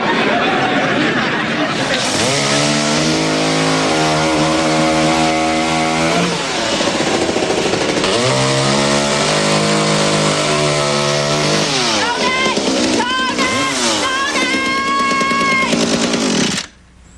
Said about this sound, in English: I thought the saw was loud.